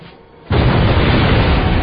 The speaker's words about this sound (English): A string of Plaseks explosions echoed around the valley, raising clouds of dust, rock chippings, and ice as the explosive rent great holes in the fabric of the Fairbanks defenses.